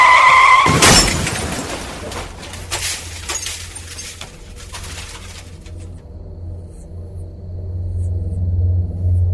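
Car crash on a road after one in the morning: a brief tire squeal cuts into a loud impact, then glass and debris clatter for several seconds before a low, steady rumble carries on alone.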